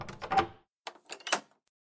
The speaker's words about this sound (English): The door is shut and bolted immediately.